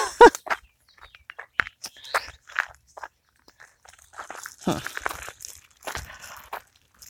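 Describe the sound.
Footsteps on an outdoor walk near a bluebird house, an irregular run of crunching, crinkling steps with scattered soft scuffs, and a voice talking briefly in between.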